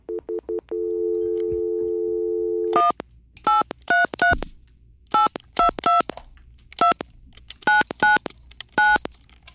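Telephone keypad tones dialing a phone number: a few short beeps, then a long steady tone, then many crisp two-tone beeps in quick, uneven succession. The beeps are loud, separated by brief gaps, with no voices.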